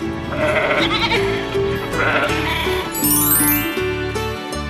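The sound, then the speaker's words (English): Sheep bleating over a cheerful farm-themed children's song. A few wavering bleats ride on continuous music that plays loudly throughout. “Down on Grandpa's farm, there is a furry white sheep. The sheep, she makes a sound like this, ba, ba.”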